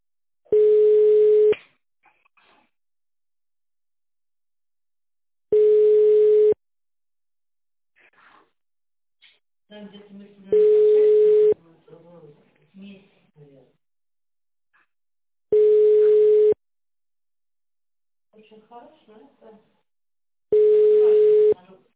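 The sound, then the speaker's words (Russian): A telephone ringback tone sounds while a call is being transferred: five steady one-second tones at a mid pitch, spaced about five seconds apart, with faint murmuring voices in the gaps. “Ожидайте. Выполняется передача вашего вызова.”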